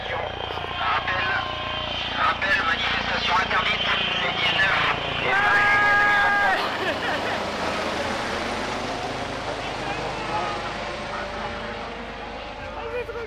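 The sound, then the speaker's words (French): A helicopter flies overhead, its steady, broad engine and rotor drone holding at a fairly even loudness throughout while people talk over it. “c'est un hélico.”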